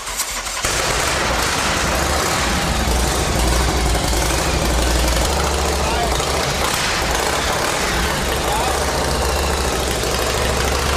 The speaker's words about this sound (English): When the bike started up, it just sounded great.